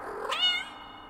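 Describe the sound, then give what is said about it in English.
A house cat meowing alone in a room among pots and pans on the floor: a single drawn-out meow that rises in pitch, then holds and fades gently. “There, in the corner, surrounded by pots and pans on the ground, is your cat.”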